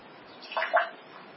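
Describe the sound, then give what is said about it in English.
Water thrown out of a glass makes a brief splash: a short, soft burst of splashing that peaks twice in quick succession, then dies away into quiet. “I didn't throw all the water in the glass. Can you see the water still in the glass?”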